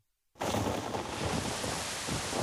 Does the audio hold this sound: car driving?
no